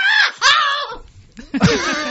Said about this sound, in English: So you can tell from the scream that was my daughter.